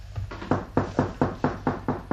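Knocking on a door: a rapid, steady series of many sharp raps at an even rhythm, with a couple of lighter taps at the start.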